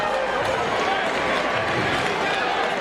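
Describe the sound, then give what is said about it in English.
Steady roar of a baseball crowd, many fans in red standing and making all kinds of noise: a dense, unbroken wash of cheering and shouting that holds an even loudness throughout. “And now Alex Sosa, with many in red standing and making all kinds of noise to get to B.J.”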